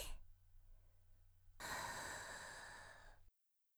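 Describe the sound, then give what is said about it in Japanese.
A long, deep breath drawn in during a guided breathing exercise: after a faint breathy start and a quiet gap, a steady, airy inhale fills more than a second and a half, then stops abruptly into silence. “あの気持ちいいジンジンを、体中に行き渡らせる準備。はい、息を吸って。”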